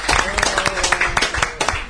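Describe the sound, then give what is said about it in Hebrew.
An audience applauds a young boy at a gathering, a dense patter of many hands clapping with voices speaking over it throughout. “איפה מחיאות הכפיים לדודי?”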